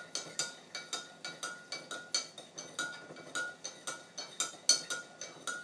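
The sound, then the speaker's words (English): Big metal tablespoon stirring chili in a large mug, giving many light, fairly faint clinks against the sides in a steady, regular rhythm with no talking. “I'm using a big tablespoon to stir this because it's a big mug”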